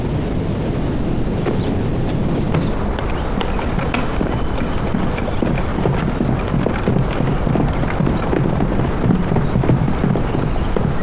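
A horse galloping, its rapid, unbroken hoofbeats running through the whole clip beneath a constant rushing, wind-like noise.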